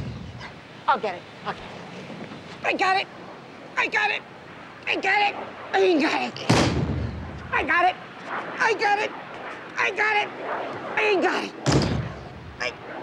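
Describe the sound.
A heavy, large trunk is lifted and set down, giving two deep, loud thumps amid steady talk from several people.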